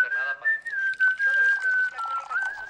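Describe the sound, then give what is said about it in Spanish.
A person whistling a sustained, wavering tune at a steady high pitch, the notes running together with only short breaks over a soft hiss. “y silba, la gente silba”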